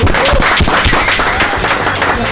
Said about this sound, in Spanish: Un aplauso entonces.